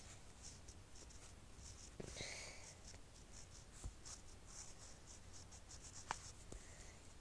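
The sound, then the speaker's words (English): Pen writing on paper, a faint, steady scratching that runs throughout, broken by a few sharper ticks and taps. “Okay, so I've written that.”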